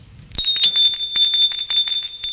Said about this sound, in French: Gilles sonne à la porte d'entrée.